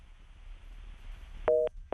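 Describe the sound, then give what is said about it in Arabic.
A telephone call drops into a busy tone. Faint line hiss gives way to two loud, steady beeps, and the second is cut off at the end. “فقدنا الاتصال.”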